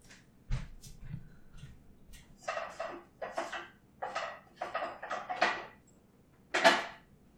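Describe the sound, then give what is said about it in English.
Metal clanks and clatters as a small cooking pot is handled to start heating oil in a kitchen, a series of sharp, irregular knocks and scrapes, moderately loud, separated by short quiet gaps with no talk. “So I'm gonna start a pot of oil too.”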